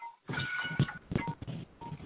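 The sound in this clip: Touch-tone dialing beeps from someone's phone during a group call: a few short, steady tones at different pitches, spaced out over a busy, noisy background.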